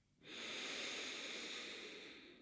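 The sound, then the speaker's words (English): One slow, deep breath drawn in through the nose makes a soft, airy hiss that swells quickly and holds for about two seconds before easing slightly. It is quiet and heard alone. “full breath in through the nose. Open the mouth, exhale. We'll do that twice more. Full deep breath in.”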